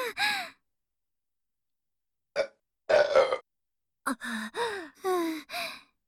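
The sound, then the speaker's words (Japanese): A loud burp from a person: a short, rough, low voiced burst among several other brief throaty vocal sounds, with silent gaps between them. “ゲップ出ちゃった。やば。すっごい音と匂い。”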